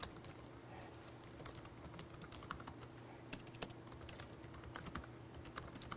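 Typing on a computer keyboard: many quick, quiet key clicks in an uneven rhythm over a faint steady hum.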